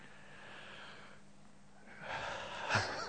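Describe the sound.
A person imitates asthmatic wheezing breath, a faint, harsh, noisy breath that swells into a louder rasping gasp toward the end.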